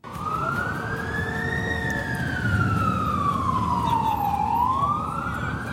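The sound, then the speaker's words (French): Wailing emergency siren on a New York street in the early 1980s: a single loud tone climbs, then glides slowly downward before rising again, over a constant low rumble of traffic. “nous voilà arrivés dans les rues de New York. Hein, vous entendez cette ambiance que vous connaissez bien.”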